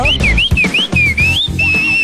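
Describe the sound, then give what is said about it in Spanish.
Bright, high whistling likened to a goldfinch, in smooth sliding tones that rise and fall in short repeated phrases over a steady low rumble for about two seconds. “Ese es un jilguerillo que los chifla.”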